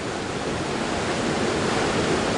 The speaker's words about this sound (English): There's been a lot of rain, and the river is already swollen, punctuated with giant boulders.